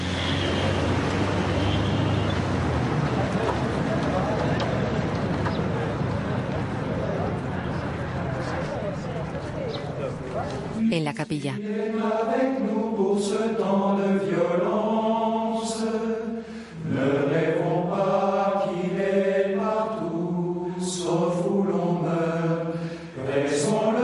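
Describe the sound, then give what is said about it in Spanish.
Cars driving away while several people watch: a steady, broad rumble of engines and road noise lasts about ten seconds, then harmonic voices take over. “Varias personas miran a los coches que se alejan.”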